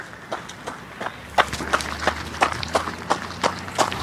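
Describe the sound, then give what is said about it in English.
Running footsteps of a marathon runner on Brisbane roads, many steady, evenly spaced footfalls slapping the pavement in a quick regular rhythm. “welcome back to the roads of Brisbane as I continue to run marathon number 9 of 12 in 12 in 2012”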